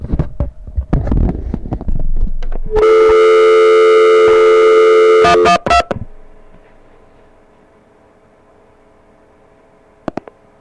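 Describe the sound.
A Proctor telephone line test set runs an open-line test: scattered clicks, then a loud steady multi-tone signal that stutters off in a few breaks, leaving a faint hum and a last pair of clicks.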